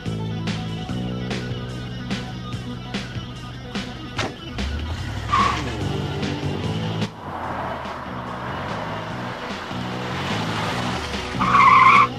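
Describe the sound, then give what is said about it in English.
A car brakes suddenly to a stop, its engine hum running beneath a short tire squeal midway and a louder screech of skidding tires at the end. “she suddenly stops the car”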